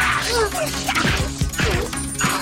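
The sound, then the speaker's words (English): Heavy crashing thuds of a staff member thrown onto a table in a brawl, a few sharp impacts landing over a dense, steady background with no speech. “One staff member is sent flying onto a table. Zed punches a man to the ground.”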